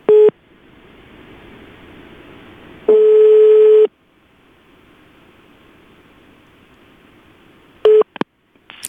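Telephone call signal tones while calling someone. A short beep comes first, then a steady tone lasting about a second over faint line hiss. A brief beep and a few clicks follow near the end.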